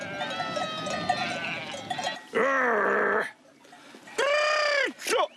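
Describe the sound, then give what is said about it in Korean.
A shepherd in a mountain village calls to gather a flock of sheep toward dusk: two long, loud, sustained tonal calls with wavering pitch, set against a busy layer of bleating animals. “무슨 소리인지 하나도 못 알아듣겠는데 어쨌든 양들하고 소통하는 그런 소리인 것 같습니다.”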